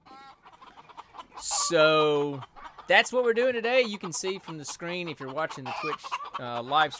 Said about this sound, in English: we chase a lot of chickens. It usually sounds like this.